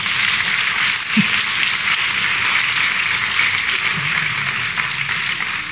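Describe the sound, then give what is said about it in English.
An audience applauds a nonprofit's executive director with a steady, dense wash of clapping that holds throughout and eases slightly at the end. “And so give him a big round of applause, because”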